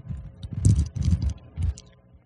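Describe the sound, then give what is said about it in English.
Crinkly peeling as the sealed top is pulled back from a prepackaged communion wafer cup, a few short crackling bursts of plastic and foil, fairly quiet with no talk over it. “So we'll just peel back the top there.”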